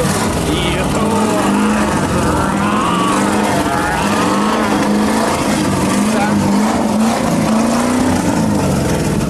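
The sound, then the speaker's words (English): A V8 car engine revving, a steady droning roar whose pitch swells up and down in a few surges, with several people talking over it. “Now that's what I call V8 pleasure.”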